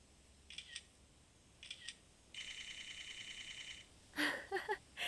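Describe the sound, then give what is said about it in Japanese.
Smartphone camera shutter firing in burst mode while taking photos on a beach outing. Two brief double clicks come first, then a rapid run of fast repeated shutter sounds lasting over a second, then a few more sharp clicks. All are fairly faint. “なんか連写モードになっちゃった。”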